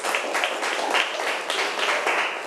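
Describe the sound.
Classroom applause for a student who answered correctly: a steady burst of clapping from many hands lasting a couple of seconds, moderately loud and uneven in rhythm, with no talking.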